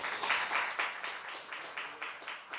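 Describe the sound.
A church audience applauds, many hands clapping at once in a quiet, steady pulsing rhythm.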